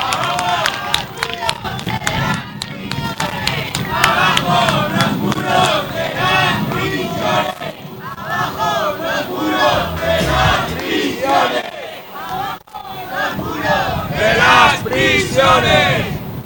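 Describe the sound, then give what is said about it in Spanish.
A live crowd at a march against the Zuera mega-prison fills a parking lot with loud chanting, shouting and bursts of clapping, the dense babble of many voices swelling and dipping throughout. “Escuchabais sonido en directo de allí, de el aparcamiento de la Marcha Azuera.”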